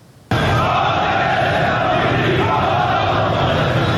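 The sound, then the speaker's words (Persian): A crowd of Ahvaz steel workers demonstrates in the city streets: loud, sustained shouting and chanting bursts in abruptly and holds at steady volume with no pause. “تظاهرات روز دوشنبه کارگران فولاد اهواز در خیابان‌های این شهر.”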